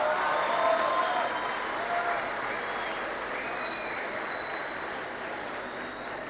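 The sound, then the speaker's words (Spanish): Audience applause at a folk music gathering in Córdoba: dense, continuous clapping that holds steady and fairly loud for the whole stretch, with a slight easing after the first second. “un aplauso, por favor.”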